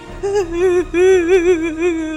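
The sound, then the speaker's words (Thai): A storyteller's voice imitates a crying sunflower in a children's tale, producing a sustained, wavering, sobbing wail with a trembling pitch, broken once by a brief gap and heard alone. “และแล้วต้นทานตะวันนั้นก็ได้เริ่มร้องไห้”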